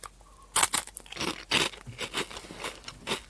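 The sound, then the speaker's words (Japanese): Crunchy Potelong potato snack sticks being bitten and chewed give crisp, loud crunches, then a run of smaller crackling chews, alone without talk. “それをちょっと思い出しながらね、ポテロング食べようと思います。”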